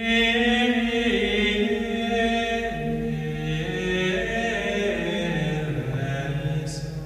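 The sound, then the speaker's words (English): Gregorian chant, religious choral music: voices sing a smooth, continuous melody that moves stepwise up and down in long sustained tones, steady and fairly loud throughout. “Gregorian chant is the religious music that sounds like this”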